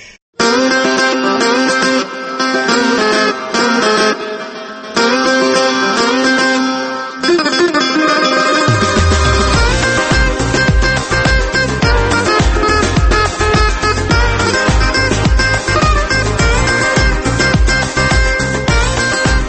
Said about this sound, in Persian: این صدای این موسیقی که میاد دیگه متوجه میشیم که الان کامران ملک مطیعی پشت خطه